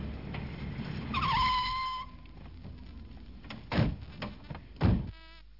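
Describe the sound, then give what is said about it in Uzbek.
A car pulls up and stops at a gate: a high, whining squeal with ringing overtones, then quieter low rumble, followed by two dull thumps. “Mana darvoza oldiga mashina kelib to'xtadi.”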